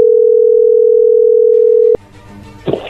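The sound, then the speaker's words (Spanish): A telephone dial tone as a call is placed: a loud, steady, unbroken hum holds for about two seconds, then cuts off abruptly, leaving faint line noise and a brief burst of sound near the end. “Bueno, ahí se está marcando, ¿ok?”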